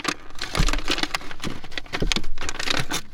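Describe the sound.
Package being unwrapped on a high-speed train, its wrapping crinkling and rustling in many dense, crisp bursts that keep going throughout.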